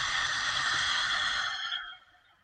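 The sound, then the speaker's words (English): A long, deep exhale through the mouth during a guided breathing exercise: a steady, airy hiss that holds for about two seconds and then fades out. “And now let's take a deep breath in through the nose. And out through the mouth.”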